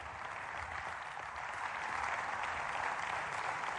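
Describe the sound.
Crowd applause rises for two huge oil wrestlers at a palace wrestling contest beside the oil cauldron, a soft, steady wash of many clapping hands that swells slightly partway through and continues without speech.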